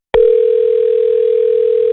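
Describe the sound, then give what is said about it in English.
Telephone ringing tone heard while calling a radio colleague: a single loud, steady electronic tone that starts abruptly and holds unchanged in pitch and level to the end, with no voices. “Well, let's just try Jonathan here from our WBGL morning show.”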